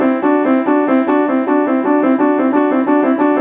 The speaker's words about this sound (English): So trilling in thirds would sound something like this.